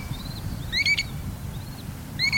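Dowitcher calls, from a plump, brownish American shorebird: a few brief, high, thin whistled notes, faint over a low background hiss.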